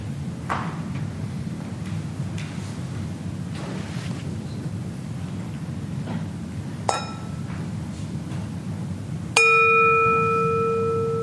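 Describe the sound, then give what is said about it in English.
A gong marking the start of a meditation: one clear stroke near the end rings with bright, sustained tones that slowly fade over soft background hiss. A short, light metallic tap comes a few seconds before it. “And I will signal the beginning and the end of the meditation using this gong.”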